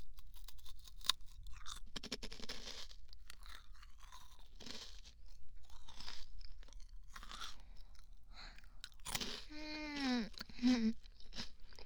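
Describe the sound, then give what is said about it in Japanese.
Crunchy snacks are eaten with many crisp, irregular crunches and chewing sounds, fairly faint and spread throughout, with no talk over them. “今日一緒に食べようと思って買ってきたお菓子食べる。”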